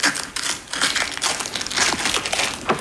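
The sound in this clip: Paper crinkles and crushes as a large cylindrical parcel holding an art print by a street artist is unwrapped, irregular crackling and rustling bursts with sharp crisp peaks and no talk.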